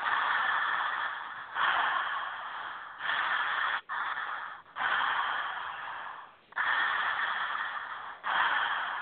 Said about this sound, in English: what you're starting to do is you're going to start connecting your inhale and your exhale.